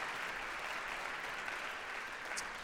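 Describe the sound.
Audience applause welcoming a speaker to the stage, a faint, even wash of clapping that holds steady throughout.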